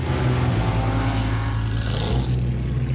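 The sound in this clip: A racing car's engine roars at full speed along a straight, a loud, steady, unbroken drone that fills the whole stretch.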